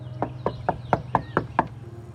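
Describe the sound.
Seven sharp knocks on a door come in an even, steady rhythm over a faint low hum.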